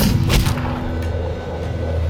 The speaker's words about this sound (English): who fired his pistol. The shot caught her in the forehead.